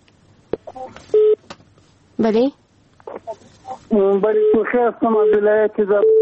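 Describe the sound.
Telephone tones as a listener's call connects to a radio call-in program: short, flat electronic beeps, followed by a voice speaking over the phone line.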